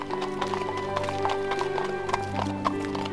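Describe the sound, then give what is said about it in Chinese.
Hooves of a horse pulling a carriage along a street clip-clop steadily, a quick, even rhythm of many hoofbeats running throughout. “马车进到了那条街时，洛士邦医生问”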